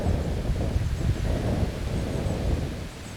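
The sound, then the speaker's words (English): Wind blows outdoors in a valley during a walk, buffeting the microphone with a loud, low, rumbling roar that surges and eases throughout. “And then the wind blew!”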